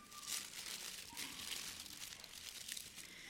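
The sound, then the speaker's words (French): Paper crinkles faintly as a gift, a small handmade paper picture, is unwrapped: soft, continuous rustling and crackling with a few sharper crinkles throughout. “Alors c'est un cadeau, vous allez dire, c'est bizarre, quand on reçoit un cadeau, on aimerait qu'il soit emballé, mais c'est moi qui vais le déballer.”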